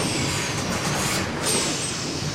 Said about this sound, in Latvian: Autobuss beidzot ir klāt.